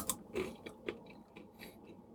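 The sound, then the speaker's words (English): Someone chews an unroasted walnut with quiet, crunchy bites. A few soft cracks and grinding chews come at an uneven pace, faint throughout. “Yeah, the unroasted walnuts, I'm just tasting one right now.”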